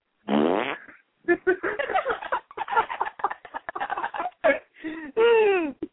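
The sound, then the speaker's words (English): Fart-like sound effects standing in for a stabbing: many buzzy, wet blurts of varying length, loud and alone, some ending in squeaky pitch glides. “Why does your stabbing sound like flatulence?”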